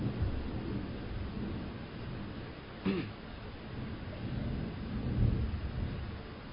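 Faint rolling thunder during a thunderstorm, with lights flickering and lightning striking. It is a low, steady rumble with rain-like noise and one brief, sharper crack near the middle.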